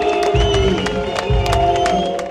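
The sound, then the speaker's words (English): Crowd booing over polite applause at a political campaign event in Jena, Thuringia, for the German chancellor; sustained low jeering voices run beside scattered clapping, with a few heavier low bursts. “Boos cut through a polite applause for Chancellor Olaf Scholz.”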